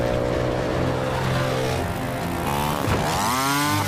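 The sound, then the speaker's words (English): A motorcycle engine drones steadily as the bike is ridden through busy docks, then dips briefly and revs back up with a sharp rise in pitch. “jumps the bike off the quay onto a boat, rides over some crates, jumps onto another boat, then abandons the machine.”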